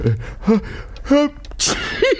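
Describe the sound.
An old man sneezes: a few short, voiced, gasping intakes of breath build up to a sharp, hissing burst, followed by a brief voiced sound.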